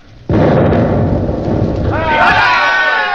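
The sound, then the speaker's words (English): A ship's cannon fires a round with a sudden, heavy boom that swells into a loud, sustained rumble, and a brighter ringing tone rises over the roar near the end. “I'll give them a round directly amidships. Right. More right. More. There. All set. Fire!”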